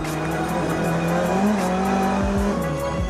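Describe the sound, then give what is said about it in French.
Turbocharged car whistling over a steady, loud engine drone while being driven fast, with a few low, falling pitch sweeps near the end. “On entend bien le turbo qui siffle.”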